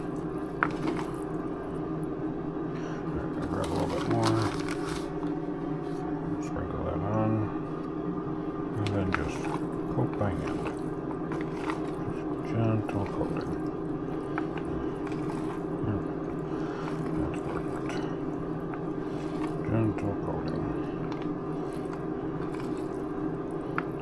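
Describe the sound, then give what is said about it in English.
Wet squishing and soft squelches of food stirred by hand to coat it in a sprinkled seasoning, in many irregular bursts over a steady low hum, with a voice talking at times. “I'm going to grab some here and we're going to sprinkle this on. Just a gentle sprinkle. And we're going to stir by hand just to coat it some.”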